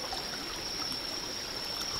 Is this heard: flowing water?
yes

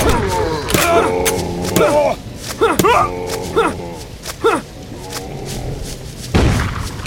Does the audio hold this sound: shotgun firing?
yes

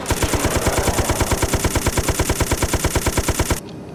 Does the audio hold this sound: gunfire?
yes

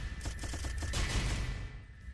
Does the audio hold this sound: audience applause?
no

